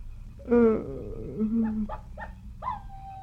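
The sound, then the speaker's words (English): Coyote howling: a short wavering howl opens, followed by a few brief yips and a final higher cry, all fairly faint. “What's that? Must be a coyote. There's no wolves around here.”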